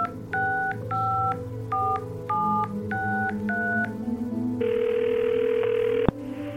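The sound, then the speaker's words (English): Telephone keypad tones as a number is dialed for a blood bank calling list: six short electronic beeps in an uneven rhythm, then a steady sustained tone that ends with a sharp click, over a low background hum. “He sits for a few minutes before dialing the next number on his endless list.”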